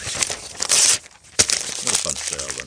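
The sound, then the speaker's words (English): Papers are torn up and crumpled in two rough bursts of ripping and crinkling, and a voice is heard near the end. “He's another actor from the Rob Rinder School of Acting, tearing up his papers.”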